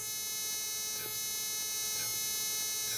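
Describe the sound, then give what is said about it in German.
Cold plasma wound therapy probe buzzing much like an electric razor: a steady, bright electrical drone with faint regular pulses about once a second. “Bei kleinen Wunden wird die kalte Gaswolke per Sonde aufgebracht. Das hört sich ein bisschen an wie ein Rasierapparat.”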